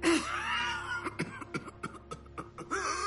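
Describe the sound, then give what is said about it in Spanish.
A man coughs into a handkerchief, ill and bringing up blood: a run of harsh, broken coughs in quick succession, loud and alone, after an opening voiced wheeze. “tose sobre un pañuelo, lo mancha de sangre.”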